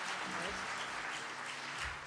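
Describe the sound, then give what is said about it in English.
An audience at a live band performance applauds the guitarist with steady, dense clapping from many hands that holds an even level throughout. “So if you could give a round of applause for Gideon Lightweight over here on my left on the guitar.”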